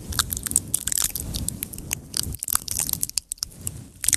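Crinkly plastic crackling and crunching from bottles handled for ASMR, with many quick sharp clicks and squeezes packed closely together at a fairly steady level, with no voices.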